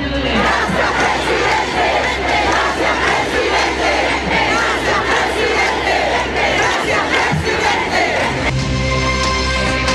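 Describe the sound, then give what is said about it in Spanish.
Crowd of Gabriel Boric supporters chanting in his favour at a rally after his speech: a loud, continuous roar of many voices in rhythmic chants. “un discurso, como lo decíamos, que duró casi 20 minutos y que tuvo acompañado de múltiples cánticos a favor de Gabriel Boric por parte de sus adherentes. Escuchemos parte del ambiente de ese momento.”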